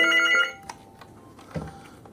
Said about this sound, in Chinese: 接班的两位民辅警上岗没多久，就接到了游客求助电话